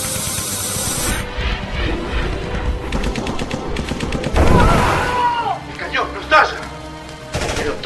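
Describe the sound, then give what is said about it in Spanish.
Machine-gun fire in a dramatized battle against a ray-firing machine, with rapid cracking bursts mixed with booms and other dense battle effects, loud throughout. “Pero la ametralladora todavía funciona.”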